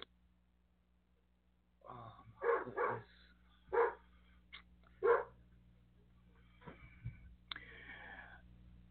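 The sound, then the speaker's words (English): A dog outside barks at a window, giving a few short, fairly faint barks in a quick cluster, then softer whimpering sounds over a quiet low hum. “you probably hear my dumb dog barking right now. He sees me. He's outside. And he sees me through the window, and he's barking.”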